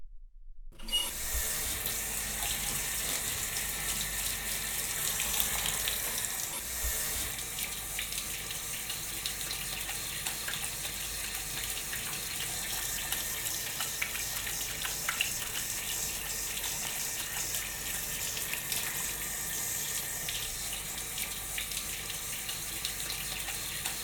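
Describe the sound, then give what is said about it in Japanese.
Water runs steadily as a child's hair is rinsed clean of shampoo, a continuous hissing, splashing flow that stays even and fairly loud throughout, with no talk. “それじゃあこのまま頭を洗い流していくから、まだお目目閉じててね。”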